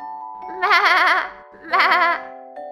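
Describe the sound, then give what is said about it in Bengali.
A human voice imitates a goat bleating loudly, with two long, wavering, nasal bleats separated by a short pause. “ছাগল বলল, এবারে আমি জোরে জোরে ডাকছি ব্যাংকে। আর ডাকতে শুরু করলো,”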